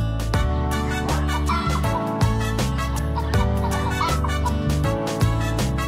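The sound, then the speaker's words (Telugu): Chicken clucking, a hen sounding in short bursts, woven into loud rhythmic music with a steady beat. “ఎగరుతూ పాకే వీరమైన ఒక కోడి.”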